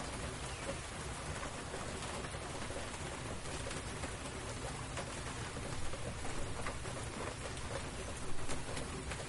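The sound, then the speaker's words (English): Heavy spring rain pours over an open field, a steady dense hiss of drops across the full range that stays even and unbroken throughout, with no voices. “Birds, but man, this rain is really coming down.”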